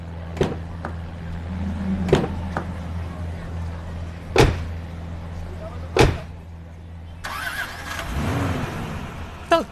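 Car doors thump shut several times as people climb into a car, sharp isolated knocks over a low steady hum, before an engine starts up and runs in the final seconds.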